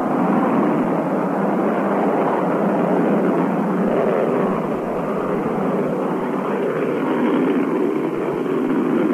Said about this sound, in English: The MA-6 vehicle has lifted off. Trajectory looks good. The MA-6 vehicle has off the launch pad.